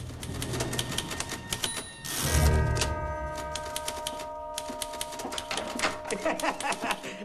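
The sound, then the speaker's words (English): Rapid clacking of a secretary hammering away at a typewriter, with irregular, crisp key strikes throughout. A brief louder burst comes near the middle, and a faint sustained tone lies beneath the typing. “Secretary is hammering away at her typewriter, looking miserable.”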